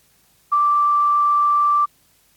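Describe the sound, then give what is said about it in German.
An answering machine beep on a secondary school's phone line in Ebermannstadt: a single steady, mid-pitched electronic tone that holds evenly for a bit over a second, then cuts off cleanly into silence. “Sie haben den Anrufbeantworter des Gymnasiums in Ebermannstadt erreicht. Leider sind wir bis Montag um 8 Uhr geschlossen. Bitte hinterlassen Sie Ihre Nachricht nach dem Ton.”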